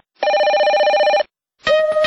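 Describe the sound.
A telephone rings for a radio call-in segment, with two loud, bright electronic rings: one long trill lasting about a second, a short silence, then the second ring beginning.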